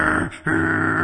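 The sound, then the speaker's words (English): Low, rough growling from dogs, with males and females growling at each other. It comes as a sustained rumble, breaks off briefly, then resumes at the same level. “They like this growling business. And the females growl at the males. And the males growl back.”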